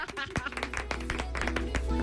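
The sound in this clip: A short run of sharp hand claps, quick and somewhat irregular, mixed in with people talking at moderate loudness.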